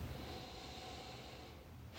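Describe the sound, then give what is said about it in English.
A big, deep breath taken during a relaxation tapping exercise for anxiety: a long, soft, airy breath with a steady hiss that stays quiet and even throughout. “Big deep breath.”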